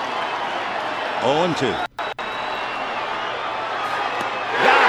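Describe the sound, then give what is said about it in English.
Stadium crowd roaring at a Dodgers game as Clayton Kershaw completes a no-hitter, a steady wall of cheering beneath a commentator's voice that swells louder near the end. “And the crowd goes wild.”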